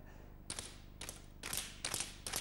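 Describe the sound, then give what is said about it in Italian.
Sharp knocks of a ruler being struck with an ordinary sheet of white paper lying on it. Several dry, quiet impacts arrive at irregular intervals, each with a brief bright snap. “Prova a dargli un'altra botta sulla riga adesso”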